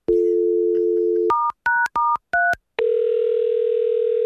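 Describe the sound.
A telephone dial tone gives way to a few short, bright DTMF keypad beeps as a number is dialed. A steady, buzzy tone follows the beeps, and no one speaks.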